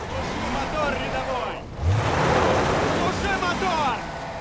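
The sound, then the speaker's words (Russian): A Hummer's wheels spin in a muddy rut, giving a loud, continuous churning roar of engine and slipping tires that swells and surges, with a heavy low lurch midway. “Колеса Хаммера крутятся в грязной колее.”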